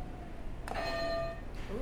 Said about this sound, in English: All right, can you hit another buzzer for me?